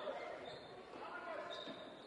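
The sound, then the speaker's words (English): A basketball dribbled behind the back during a game, the bounces soft and masked by steady crowd noise and commentary. “Behind the back dribble.”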